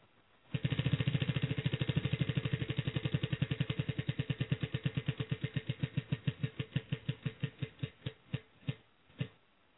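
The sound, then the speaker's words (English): A prize wheel spins after a quiz win, its pointer clicking rapidly and loudly at first, then the many clicks slow and spread apart until the wheel stops. “we're going to spin the wheel and see what you've won here. Let me do that right now.”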